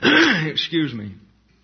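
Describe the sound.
A man clears phlegm from his throat: a long, harsh, rasping burst, then a second shorter one, before it fades to quiet.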